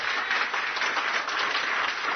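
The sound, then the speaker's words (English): A church audience claps their hands in steady, dense applause that stays loud and even throughout, with no voices rising above it. “Clap them hands. Give God glory.”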